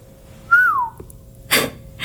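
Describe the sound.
A person whistles a single short note that rises slightly and then glides down in pitch, clear and alone against quiet background noise.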